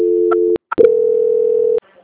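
A telephone call transfer tone: a steady low electronic tone that sounds, breaks off after a click, then returns as a longer tone and stops.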